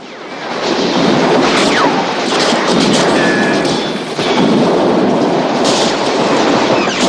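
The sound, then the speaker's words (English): Police officers fire on a house, riddling it with bullets and buckshot. A loud, continuous barrage roars almost without letup, dipping briefly twice before surging again and holding to the end. “Open fire! The officers riddle the house with bullets.”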